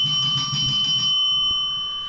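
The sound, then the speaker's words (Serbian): A bell on a desk is struck and rings out with a bright, sustained metallic tone. The ring holds steady and then slowly fades, with no other sound alongside it. “Ja ja zvonim. Pa ti si zvonio prvi, što to znači da ja ne sam da pipnem zvon?”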